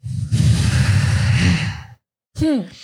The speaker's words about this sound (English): So you breathe in, hold, and then out through the nose.